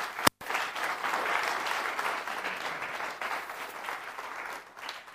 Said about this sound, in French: Est-ce qu'on peut acclamer le Seigneur pour cette parole?